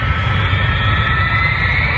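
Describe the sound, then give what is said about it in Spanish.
An airliner taking off from the runway: a loud, even jet roar with a dense low rumble and a hissing upper layer that holds steady throughout, with no voices. “Tripulación entrando en pista. Prepárense para el despegue.”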